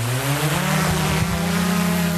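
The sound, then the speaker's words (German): Steady whirring hum of a small camera drone's motors spinning up for takeoff outside a coking plant, holding a loud, even buzz with layered tonal harmonics throughout and no voices. “Die Drohne fährt jetzt hoch und dann können wir direkt loslegen.”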